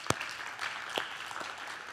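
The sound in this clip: Congregation applause at a church service welcoming first-time guests: a fairly faint, steady wash of clapping lasting the whole moment, with a few sharper individual claps standing out.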